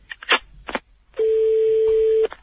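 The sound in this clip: A telephone call being dialed: a few short, clipped keypad tones, followed by a single long, steady mid-pitched tone that holds for about a second before cutting off.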